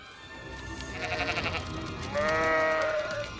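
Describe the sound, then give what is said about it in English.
Sheep bleat in panic as they run around in a pen, a few wavering, nasal cries rising over a low background, with the loudest bleat coming near the end. “In a nearby pen, the sheep start to run around in a panic.”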